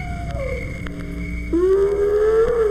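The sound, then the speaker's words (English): A lone wolf howling at night in a zoo canyon: a long, clear tonal call whose pitch slides and wavers, over a steady background of continuous high chirping. “if you spent the night in Dog and Cat Canyon against a background of chirping crickets, you might hear a lonely wolf's call.”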